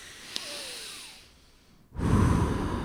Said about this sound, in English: take a deep breath